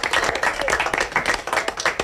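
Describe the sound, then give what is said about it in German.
Applause rings out at the University of Applied Sciences in Windisch as people watch a satellite launch: crisp, loud clapping with an uneven, bursting rhythm that swells and dips throughout. “Applaus gibt es aber eben auch zu Windisch in der Fachhochschule.”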